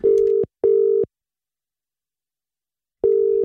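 An outgoing telephone call rings out with a ringback tone of two short buzzing pulses in quick succession, a pause of about two seconds, then another pulse starting the next pair. The tones are fairly loud and heard alone.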